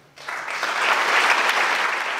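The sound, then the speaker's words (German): Standing ovation at a whistleblower award ceremony, the 2013 prize handed to an empty chair for Edward Snowden. Dense, loud applause swells in quickly and holds steady as a continuous wash of clapping to the end. “Die Verleihung an den stellvertretenden leeren Stuhl wurde von stehenden Ovationen aus dem Publikum begleitet.”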